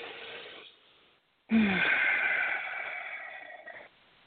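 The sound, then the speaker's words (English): A person catches their breath after energetic talking: a soft breath first, then a long, loud, wheezy breath that rushes and gradually fades. “hold on, let me catch my breath.”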